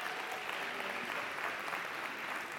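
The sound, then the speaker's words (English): Soft, steady applause from a church audience welcoming guests at a morning service, a continuous even patter of many hands clapping with no clear peaks or pauses. “So church family, can you please give a very warm welcome to all of our guests this morning?”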